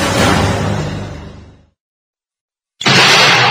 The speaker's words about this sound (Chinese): 有炸弹，快找掩护！